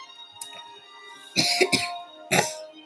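A person coughs and clears their throat with dust caught in it: a faint short catch, then a burst of harsh coughs and one more rough cough near the end, heard alone.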